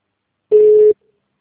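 Busy tone after a dropped phone call: a single loud, steady beep of constant pitch lasting under half a second, with silence before and after.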